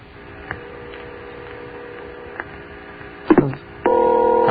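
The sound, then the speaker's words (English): A telephone rings on the line, heard through the handset. A few soft clicks over a low hum lead into a steady, buzzy ring tone that starts late and runs to the end. “Yes, it's ringing. Nice, healthy ring.”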